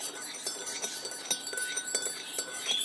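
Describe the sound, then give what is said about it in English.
A spoon stirs and clinks faintly against a cup, giving many light, quick metallic taps in a loose, repeating rhythm. “Let's just stir this. Turn the coffee pot off.”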